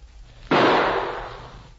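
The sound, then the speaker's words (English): A single gunshot, the last round fired at an approaching man: one sudden, loud crack whose noisy tail dies away over about a second. “Go ahead. But here goes our last shot.”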